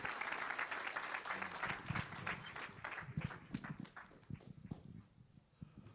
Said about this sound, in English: would you put your hands together and give a warm welcome to our esteemed guest and beloved pastor, Greg Moore.